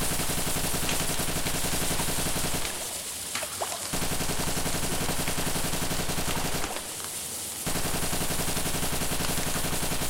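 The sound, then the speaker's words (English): Tommy gun firing until its drum magazine is empty, aimed at a fleeing figure beside a river. Loud, dense, continuous automatic fire fills about ten seconds, with two brief, slightly quieter dips. “fires off her Tommy gun, emptying the whole drum.”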